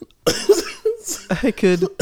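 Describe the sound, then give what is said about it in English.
A cough breaks into stifled, held-back laughter: short voiced laugh bursts and breathy snorts in a few uneven pulses, with one harsher coughing burst among them. “It's like me laughing, trying not to laugh, and then having to cough in the middle of the laugh”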